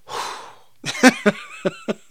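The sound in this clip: A deep, rushing inhale after a long stretch of talking lasts about half a second. A few short, breathy voiced bursts follow, like soft chuckles.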